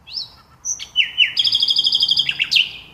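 A nightingale singing: loud, clear whistled notes that slide in pitch, then a fast rhythmic run of repeated high chirps ending in a sweeping flourish, with no other sound.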